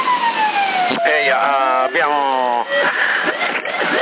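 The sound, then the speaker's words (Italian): Siren sounds played over a CB radio channel, loud and band-limited, with buzzy wailing and warbling sweeps that repeatedly rise and fall. “Abbiamo la solita giostra stasera. Siamo la giostra con sirene e pernacchie varie.”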